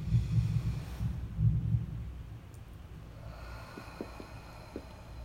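A slow, deep breath close to the microphone: a soft, low rushing that swells for a couple of seconds, then fades into quiet.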